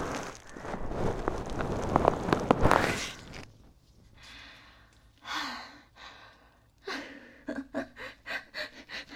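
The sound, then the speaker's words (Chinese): Deep breathing: a few long, heavy breaths that sound like drawn-out sighs, following a loud rushing noise at the start. “大口大口的呼吸吧。对，就是像现在这样，大口大口的呼吸啊。”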